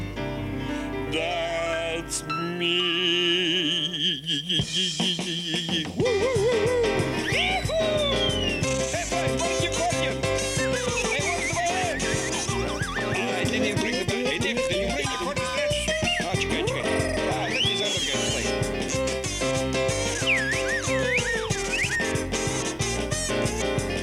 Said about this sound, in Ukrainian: використовуючи у якості музичного супроводу пилку, коров'ячі дзвоники, грибінець, глиняні свистульки, чавунці і інший сільськогосподарський реманент. Приблизно це звучало десь так.